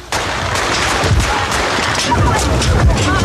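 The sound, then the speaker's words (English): Gunshots fired at President Reagan in the 1981 assassination attempt outside a Washington, D.C. hotel sound as a series of sharp, loud cracks within dense, noisy commotion and voices. “The president had just finished up a speech before the AFL-CIO and was walking to his limousine when John Hinckley Jr. of Colorado fired 6 shots toward the president.”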